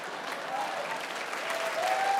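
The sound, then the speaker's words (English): A crowd applauds while rising to its feet and clapping overhead, producing a dense, steady wash of many hands that stays fairly even and moderately soft throughout. “Clapping over their heads, the crowd rises to their feet.”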